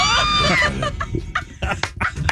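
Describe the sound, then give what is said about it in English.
An eagle cry sound effect from a cologne commercial: a loud, high, harsh screech at the start that dips slightly in pitch, followed by quieter, broken rustling sounds. “I love the eagle. He says an eagle cry, and as though his words weren't enough,”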